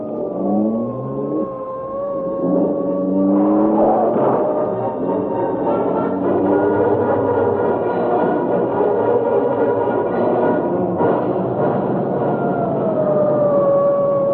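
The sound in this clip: Police car sirens during a car chase: wailing tones that rise and fall over a steady engine roar, loud and continuous throughout, with no talking.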